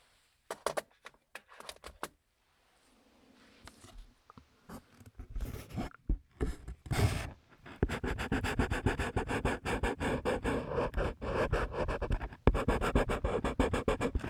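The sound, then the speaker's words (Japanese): Colored pencil scratches on paper as someone draws, quiet and soft. It opens with a few brief strokes and a short pause, then settles into steady, rapid, continuous scratching. “色鉛筆って色合いも優しいし、音も優しくていいですよね。”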